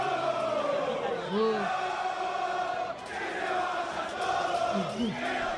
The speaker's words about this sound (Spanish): escuchamos un poquitito a los hinchas de San Lorenzo después del partido con Defensa.